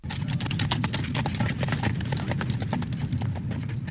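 Galloping horse hooves as the jingle for a quiz segment, a loud, rapid clip-clop drumming in a steady, even rhythm that keeps going without a break.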